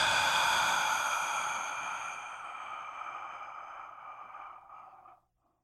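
A long, breathy exhalation like a deep sigh starts loud and fades gradually over several seconds into silence. No voices are heard.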